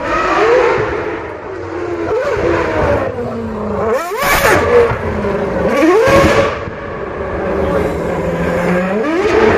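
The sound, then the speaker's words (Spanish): A Formula 1 car engine revs on city streets during an exhibition in Madrid, its loud, high-pitched whine climbing and dropping repeatedly as the throttle is worked. “Así suena el motor de un Fórmula 1 por las calles de Madrid.”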